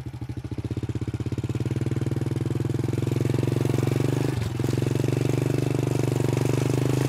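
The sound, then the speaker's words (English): A motorbike engine drones steadily while riding narrow, bumpy jungle roads in Cambodia's Kampong Speu province, a low buzzing hum with a brief dip near the middle before it resumes. “We are driving through the jungle on motorbikes.”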